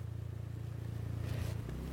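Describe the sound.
A car overtaking another car while driving: a low, pulsing engine drone rumbles steadily, then briefly swells into a louder rushing burst before it settles back to the hum.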